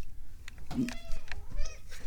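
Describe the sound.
A domestic cat in a house gives a couple of short, mid-pitched meows with bright harmonics. The meows are fairly quiet and mingle with a person's voice.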